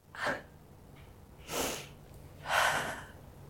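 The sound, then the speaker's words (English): Deep breathing from a person steadying themselves: a few soft, breathy bursts of air, separated by short pauses, faint and without speech. “Deep breath. It's okay.”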